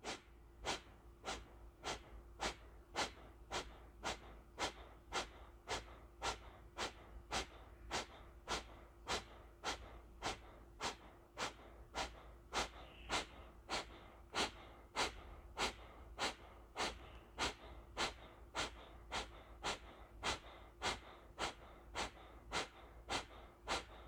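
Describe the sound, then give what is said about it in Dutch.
Kapalabhati breathing: forceful exhalations pushed out through the nose, many short, sharp puffs in a fast, even, unbroken rhythm. Each blast is quick and rather soft, with only brief quiet gaps between them and no talking. “Focus je op de uitademing door de neus. Adem eerst helemaal uit. Adem dan voor 50% in, dus voor de helft. en Kapalabhati.”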